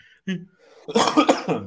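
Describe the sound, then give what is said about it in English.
A person coughs: a short, sharp hack, then a longer, harsher burst of coughing. “making me cough here”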